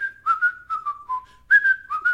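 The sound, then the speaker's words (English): Someone whistles the melody of a TV show theme song, a clear solo whistle moving through short, lilting phrases that step gently downward before jumping back up. No voices are heard. “We're almost to the part where I start to whistle”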